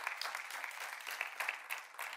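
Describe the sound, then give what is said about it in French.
Congregational applause during a church service, praising God. Dense, steady clapping runs throughout at a soft level, with no talking over it. “Est-ce qu'on peut applaudir notre Dieu qui nous donne l'autorité et la victoire?”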